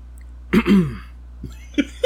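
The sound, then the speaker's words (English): A person imitates a throat clearing as a sound effect during a read-aloud of a fantasy novel: a short voiced, raspy grunt followed by a few smaller, brief vocal catches. “Thank you for the effect. Yes. Dumbledore cleared his throat.”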